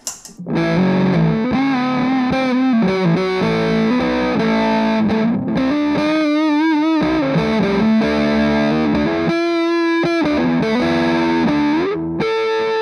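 Fuzz-distorted electric guitar with the tone control rolled all the way off, playing a steady run of sustained notes and chords. The sound is loud, thick and dark, heard alone with no talking, and holds steady almost to the end.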